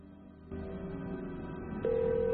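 A mobile phone call is placed from a car, heard as a steady electronic tone. Partway through, a second, louder and higher tone cuts in and holds to the end.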